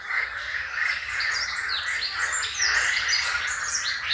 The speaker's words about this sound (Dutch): En groene kikkers.